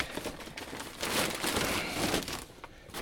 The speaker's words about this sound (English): fold that over again. It's a builder's bag. It's not a plastic bag or anything like that.